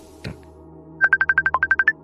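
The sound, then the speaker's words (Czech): A phone rings again with a repeated incoming call, a quick run of many short, high electronic beeps in steady rhythm after a brief soft knock. “Ty on volá znova, on se nedá odbít.”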